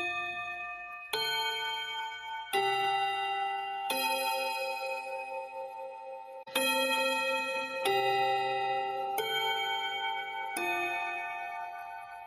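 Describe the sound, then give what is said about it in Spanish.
Bell chimes of a city bus (colectivo): a slow, steady series of clear, bright ringing tones struck one after another, each ringing on with rich overtones, at a fairly even loudness with no talk. “ahora van a sonar las campanas del colectivo.”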